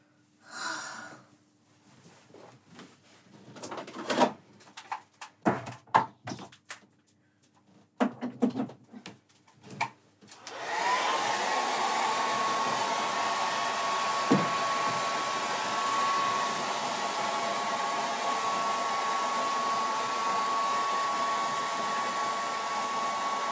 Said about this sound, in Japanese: 髪ちょっと乾かします。